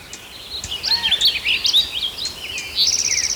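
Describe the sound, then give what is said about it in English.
Birds chirp steadily in the background, with many high, quick chirps and short trills overlapping in an irregular, busy pattern. “A lot of background noise out of birds.”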